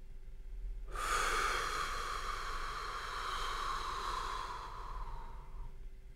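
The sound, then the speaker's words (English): A slow, long exhale through the mouth during a guided breathing exercise: a steady, breathy hiss that starts abruptly, holds for several seconds and then trails off, with no talk. “Now slowly exhale all the air through your mouth.”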